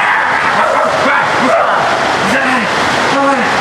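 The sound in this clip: A person barks like a dog behind a gate, voicing a few short, arching yelps over a dense, noisy background.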